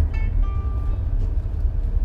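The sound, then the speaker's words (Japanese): Car tires skid and scrape while braking on a slippery surface, giving a loud, steady low rumble with a brief thin squeal early on. “めっちゃ滑ってますガリガリガリガリってタイヤが今ねあのブレーキかけるとタイヤがね”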